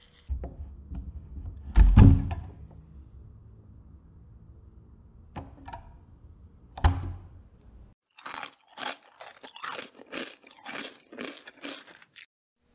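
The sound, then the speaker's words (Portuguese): Snack chips being crunched and chewed: many crisp, irregular crunches come in a quick run toward the end, preceded by a few dull, isolated knocks and thuds with quiet gaps between them. “Fazia tempo que eu não comia salgadinho. Nem lembrava mais o gosto.”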